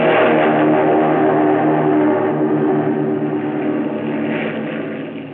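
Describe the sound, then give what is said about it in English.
Engine of a Japanese Zero fighter plane revving as it takes off down a runway: a loud, continuous droning roar with a layered buzzing hum that eases slightly toward the end. “He gunned her. And that first Japanese Zero to be flown by an American sped down the runway and took the air.”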